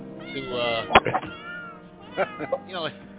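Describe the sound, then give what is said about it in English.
Cats meowing, edited together into a string of pitched, harmonic meows. Several sharp accents stand out, and some calls rise and fall in pitch. The meows overlap and fill the whole clip. “So we got our cats to do this. It was pretty cool. It took us hours of editing.”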